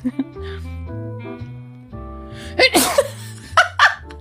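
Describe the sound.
A woman's performed, convincingly fake sneeze: a couple of sharp, breathy bursts near the end, after sustained tonal sound with a voice underneath.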